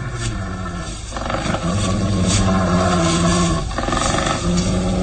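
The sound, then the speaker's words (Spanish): Deep, rough growls of a wolf-man stalking near a tree trunk, one loud continuous snarling rumble that swells slightly after the first second and holds steady to the end. “Los gruñidos se escuchan ahora más claramente.”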